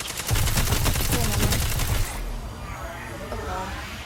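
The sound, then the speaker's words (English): Heavy machine gun fire in Destiny 2 multiplayer: a fast, regular burst of loud shots lasting about two seconds. It stops abruptly, leaving quieter game noise. “One's got golden gun, one's got heavy. The heavy is machine gun, by the way.”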